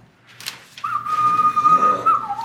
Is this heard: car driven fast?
no